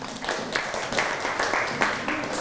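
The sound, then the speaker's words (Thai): Classroom applause as students clap for a classmate after a presentation: a fairly loud, busy patter of many hands with a few sharper claps standing out, continuing evenly throughout. “ปรบมือให้กับเพื่อนครับ”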